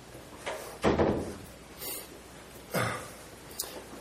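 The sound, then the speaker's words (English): A door lock is worked open with a few quiet, dull clunks and rattling knocks spaced irregularly over a few seconds. “Do you guys want to work the lock on that? You thought we locked you out.”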